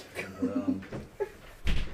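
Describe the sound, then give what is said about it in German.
A door is shut with a dull, low thump at the end, after brief voices and small knocks. “Endlich geht ihr weg. Und tschüss. Tür zu!”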